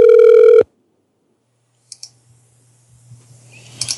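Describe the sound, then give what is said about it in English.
A telephone ringing: one loud, short electronic tone burst that cuts off abruptly, followed by near silence and then a few faint clicks and rustles. “The phone keeps fucking ringing.”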